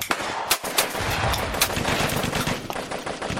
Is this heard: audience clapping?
no